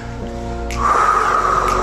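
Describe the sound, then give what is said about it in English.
A group of people taking a deep breath together, heard as a soft, breathy rush of air that swells in the second half after a quieter steady opening. “so let's everybody take a deep breath.”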